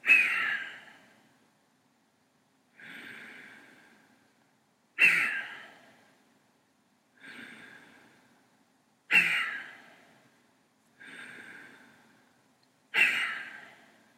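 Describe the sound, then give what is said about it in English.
Deep breathing during a breathing exercise: seven breath sounds at a steady pace, alternating stronger, sharper breaths with softer, quieter ones, each swelling and fading into near silence. “We complete 10 rapid breaths in succession, inhaling and exhaling deeply.”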